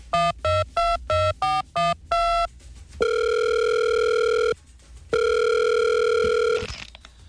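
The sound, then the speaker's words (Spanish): A telephone call being placed: a quick series of short, evenly spaced dialing beeps, then two long, steady ringing tones separated by a brief pause. “Llamando a Infantino.”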